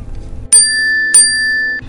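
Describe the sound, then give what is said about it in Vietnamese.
A notification bell signals the end of a bidding call: two bright, clear dings about half a second apart, each ringing on with a sustained high tone. “Bỗng tiếng chuông thông báo kết thúc cuộc gọi thầu vang lên, sớm hơn dự kiến của hắn.”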